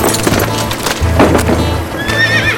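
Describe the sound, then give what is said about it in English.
Horses' hooves clip-clopping as riders move off with a wagon, a steady loud beat of many hoofbeats, joined near the end by a high, wavering whinny. “Brock Harper and the rest of the bunch were gone, riding out with the gun wagon and the horses of the dead men.”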